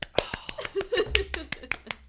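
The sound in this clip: A few hosts clap unevenly, their sharp separate claps spaced irregularly among voices and a little laughter. It is a small, sparse round rather than full applause.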